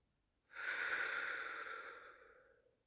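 A deep, slow breath taken during a calming bedtime breathing exercise: one steady, airy rush that swells quickly, holds for about two seconds, then fades out gradually, with no talking.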